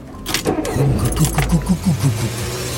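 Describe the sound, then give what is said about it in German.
A sputtering car engine starts with a rapid run of uneven, chugging low pulses that settle into a rough, steady rumble. The sound is loud, with no voices over it. “Startet den stotternden Motor”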